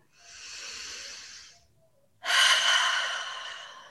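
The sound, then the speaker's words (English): Deep breaths during a guided meditation: two long, airy breaths separated by a short pause, the second louder and longer, with no talking. “So I invite you now to close your eyes and take a few deep breaths.”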